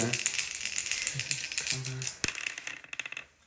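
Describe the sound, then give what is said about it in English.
Dice rattle and tumble during a tabletop Dungeons & Dragons game, a busy, continuous clatter of small hard clicks that breaks into a few sharper knocks near the end, with voices faintly underneath. “I rolled in 11 and... Or a 12 and a 13... Wow. Seriously, it's 11 total on the dice.”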